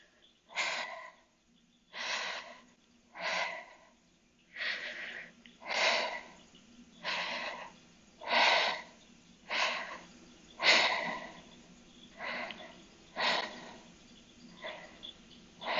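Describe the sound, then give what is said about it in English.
Rhythmic, hissing breaths come from a throat friction breathing exercise, with the air drawn through a constricted throat. There are many evenly paced breaths, each a soft, breathy rush, fairly faint, with no talk. “that's the purpose of throat friction. So I'm just going to do an example now.”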